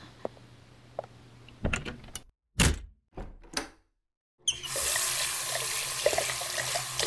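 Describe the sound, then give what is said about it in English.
Tap water runs into a sink for a quick face wash. Several knocks and thuds come first, then a steady, bright rush of water starts and continues unbroken to the end. “Quick face wash and I'm good.”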